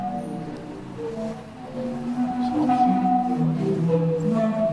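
Sea organ tones sounding with ocean waves: breathy, sustained pitched notes at several pitches overlap and shift above a steady wash of surf, growing a little louder in the second half, with no talk.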